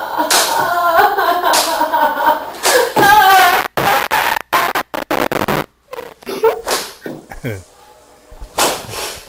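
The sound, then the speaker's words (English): Spanking slaps on a bottom: a rapid run of sharp, loud smacks in close succession, with voices and other sounds before and after. “What a nice spanking. Nice thing to do to a bottom,”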